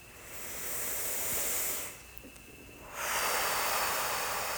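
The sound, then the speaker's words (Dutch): Deep breathing during a guided relaxation exercise: two long, airy, hissing breaths separated by a short quiet pause, each swelling and then easing off, with no voice over them. “Haal dan nu een keertje diep adem. En nog een keer omdat het kan.”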